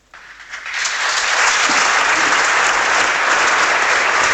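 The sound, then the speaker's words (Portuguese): Applause in a parliament chamber from some parties' benches, swelling quickly from quiet to a loud, dense roar of clapping within the first second and then holding steady. “Aplausos apenas do PSD e CDS.”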